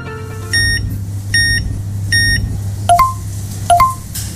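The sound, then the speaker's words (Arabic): A card payment terminal beeps during a purchase: three short identical beeps, then two quick two-note chirps, all over a low, steady hum. “هذا ما مجرد صوت جهاز الدفع لمشترياتك”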